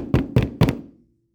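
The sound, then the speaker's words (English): A knock on a door: three firm, hollow raps, evenly spaced, each ringing briefly before the last one dies away into silence. “And there's a knock on the door of the king's door.”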